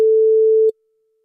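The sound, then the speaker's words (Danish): A telephone line tone while calling someone: one steady, mid-pitched beep lasting under a second, then silence. “Vi håber, at der er en, der tager telefonen her.”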